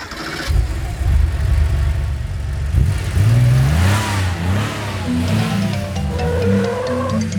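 A Porsche car engine accelerates loudly, revving hard, with its pitch climbing in stepped sweeps as it pulls away, and a steady engine roar underneath throughout.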